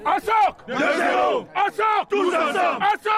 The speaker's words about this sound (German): Ein ungewöhnlicher Schlachtruf erklingt da auf dem Fußballplatz im Dahlingeröder Ortsteil Öhrenfeld. Sie stimmten sich so ein auf ihr erstes Spiel